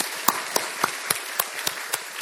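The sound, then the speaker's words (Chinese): Clapping from the audience at a church worship service honoring children's workers and parents: eight sharp, evenly spaced claps in a steady rhythm over a soft background hiss. “咁我覺得咧應該咧要為佢哋鼓掌啊！我哋咧一齊俾掌聲佢哋先，”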